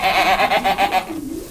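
Goats bleat on a dairy farm in a string of loud, wavering, nasal calls that run together over about a second and a half, ending in a lower, softer tail.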